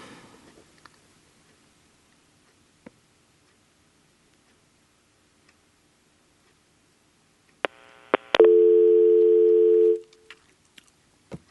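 Telephone dial tone heard while redialing to reconnect a dropped caller: a few sharp clicks, then a steady buzzing tone of about two seconds that cuts off, followed by scattered faint clicks.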